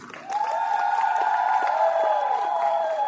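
Audience applause at a gathering on farming, with a loud, sustained cheering tone held over faint clapping throughout.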